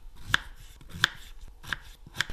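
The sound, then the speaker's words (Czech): A knife dices Red Anna potatoes into centimetre cubes, giving four sharp, evenly spaced chopping strikes on a board, with no talk. “Teď budeme krájet na jak velké kostičky? No, tak přiměřeně, přiměřeně. To je kolik? To je tak centimetr krát centimetr”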